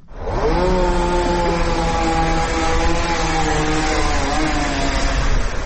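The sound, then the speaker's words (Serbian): A chainsaw cuts plane tree branches along a Belgrade city street. The motor climbs in pitch at the start, then holds a loud, steady, buzzing drone for about five seconds. “Zvuk motorne testere odzvanja ulicom Kraljice Marije u širem centru Beograda, nedaleko od Mašinskog fakulteta. Radnici zelenila seku grane drveća, mahom platana, poseđenih celom dužinom ove ulice.”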